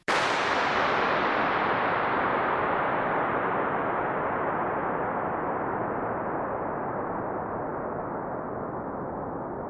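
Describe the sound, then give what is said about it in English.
A starting pistol shot fired inside a huge empty oil tank that once held tens of millions of litres of oil. One sharp crack swells into a dense, roaring reverberation that fades only slowly and is still loud at the end. “When I fired a starting pistol in this place to just measure how long the sound would last, my recordings last well over a minute. The sound just goes on and on and on.”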